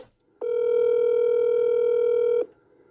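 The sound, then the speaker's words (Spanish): A single steady electronic telephone tone sounds as a call is placed, holding an even mid pitch for about two seconds before cutting off cleanly, with no voices over it. “estoy llamando al brujo en este momento.”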